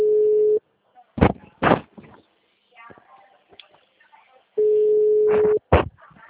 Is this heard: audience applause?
no

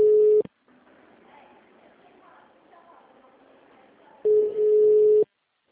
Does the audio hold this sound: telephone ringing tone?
yes

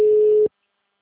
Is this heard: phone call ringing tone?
yes

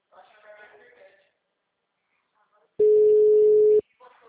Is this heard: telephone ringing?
yes

